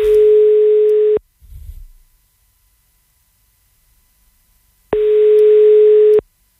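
A telephone line tone plays while calling a radio listener: two long, steady buzzing tones separated by a quiet gap, with a brief low thump just after the first.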